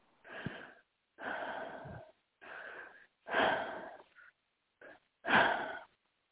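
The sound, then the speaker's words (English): Several slow, deep breaths drawn and released one after another, each a loud, airy rush of breath with short silent gaps between them and no talking. “Take three deep breaths.”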